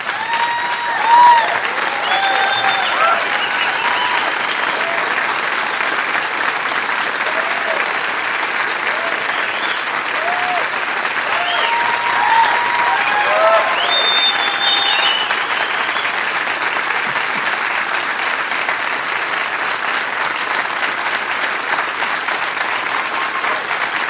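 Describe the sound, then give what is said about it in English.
A church audience applauds to welcome two pastors to the stage: loud, dense, continuous clapping that holds steady throughout, with scattered voices and cheers mixed in. “we're going to clap for them like our clapping is driving the very love of Jesus deeper into our heart, into their hearts, okay? So one last time, let's welcome Pastor Josh and Jana to the stage.”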